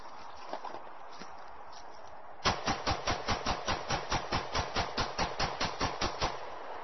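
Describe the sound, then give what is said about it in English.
A 17-round semi-automatic pistol fired point blank into a mannequin: a rapid, evenly spaced run of many sharp shots that starts abruptly after a quieter stretch and keeps a steady rhythm to the end. “That was a 17-round semi-automatic pistol that he just put into the back of the”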